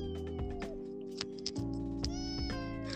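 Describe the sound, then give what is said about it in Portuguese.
A cat meows several times in short, tonal cries over a steady low hum, with no talking. “meu gato não para de miar”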